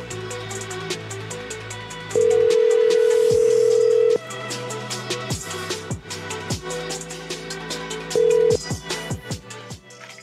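Phone call tones ring out toward voicemail on a landline-style line: a steady ringing tone holds for about two seconds, then after a gap of other short tonal beeps a second, briefer ring tone sounds.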